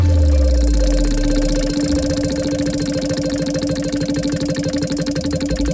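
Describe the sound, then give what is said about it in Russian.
A big prize wheel spins on a game show, its pegs ticking in a fast, regular rattle that runs continuously and stays fairly loud throughout. “давайте тогда будем крутить большое колесо удачи.”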